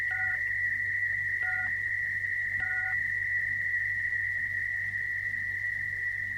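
Telephone keypad dialing tones: three short, separate beeps sound over a continuous steady tone, with no voices.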